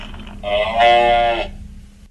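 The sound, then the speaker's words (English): A talking toy plays an electronic cow moo: one drawn-out, tonal moo lasting about a second, rising to its loudest in the middle, over a faint steady low hum. “The cow says moo. Moo.”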